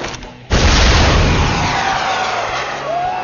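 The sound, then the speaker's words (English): A cannon fires as the gunner yanks the lanyard: one loud, sudden boom after a brief quiet start, followed by a long, sustained roar that slowly fades. “Sticking a finger in the ear facing the gun, the gunner yanked the lanyard with his other hand.”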